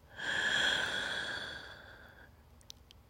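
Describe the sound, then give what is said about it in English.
A single deep breath: one loud, breathy sigh that peaks early and fades away over about two seconds, with no talk. “Breathe with me real quick. Just a really big breath in.”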